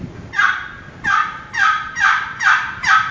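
Six raspy yelping notes from a turkey box call played by hand with short strokes, evenly spaced, each a loud, bright scratchy burst separated by brief silences.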